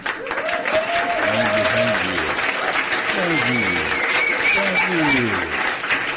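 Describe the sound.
A studio audience applauds on a radio show, a dense, steady wash of clapping that holds at an even level throughout.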